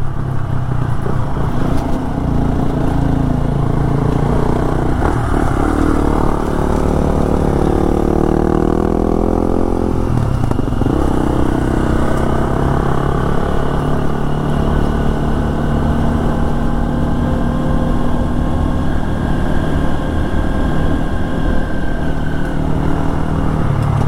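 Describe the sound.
Honda XR150L and KTM XCF-W 350 dirt bikes riding in the Pisgah Ranger District: a steady, buzzing engine drone whose pitch climbs and then drops once mid-clip before settling back into a constant hum.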